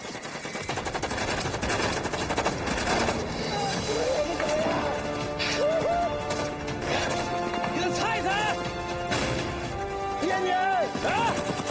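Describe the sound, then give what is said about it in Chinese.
Submachine gun fire in bursts during a battle against American troops, a dense rattling volley running through the whole stretch over music, with voices shouting and talking on top. “刘家龙一边用冲锋枪扫射”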